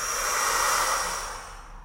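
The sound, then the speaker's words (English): A single long breath is blown out as a broad, airy whoosh lasting nearly two seconds. It holds steady at first, then gradually softens toward the end. “Take a breath. And blow.”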